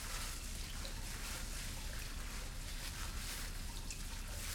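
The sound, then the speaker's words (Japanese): Soft, wet scrubbing as fingertips wash a scalp during a shampoo, a continuous crackly hiss that stays even and quiet throughout with no voices. “指の腹で地肌を丁寧に洗ってまいります。”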